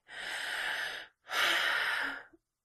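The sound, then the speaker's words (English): Deep breathing from a person trying to calm down: two long, airy breaths, each about a second, separated by a brief pause, fairly loud and heard alone without talk. “Take a deep breath.”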